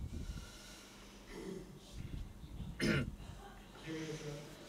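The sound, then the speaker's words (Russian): Throat clearing during a guided meditation session, a few rough, raspy clears, the loudest a sharp cough-like burst near the middle, over low background noise. “Прочистите свое горло.”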